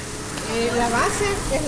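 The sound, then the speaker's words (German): Bean-and-cheese filled dough pockets sizzle on a long hot griddle at a traditional pupuseria open to the street. A steady hissing wash sits beneath a person talking. “Man nimmt ein bisschen Teig, lässt ein kleines Loch für die Füllung. Die Füllung ist schon vorbereitet. Darin sind Bohnen und Käse. Dann legt man den Teig auf das heiße Blech und brät ihn an.”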